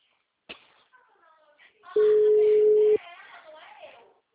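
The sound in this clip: A telephone ringback tone on an outgoing call: one long, steady, mid-pitched tone that stands out loudly, with faint talk heard before and after it.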